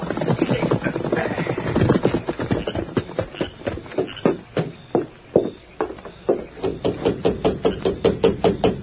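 Knocking on a door at night, many sharp raps in quick, even succession that grow more regular toward the end; louder, busier sound crowds the opening seconds.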